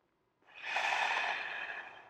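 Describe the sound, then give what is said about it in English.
Breathing in through the nose and out through the mouth, heard as a single long, steady, airy breath that starts after a short silence and holds at an even level to the end, with no voice. “on your breathing, in through your nose and out through your mouth. Like this. Breathe in and out.”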